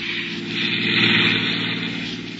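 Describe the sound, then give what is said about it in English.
A car coming along a road: a steady mid-pitched engine hum that swells slightly and then eases off, with no voices. “Get up on the road. There's a car coming.”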